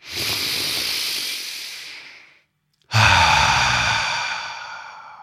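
A deep breath: two long, loud breathy rushes of air, each fading out, separated by a brief silent pause.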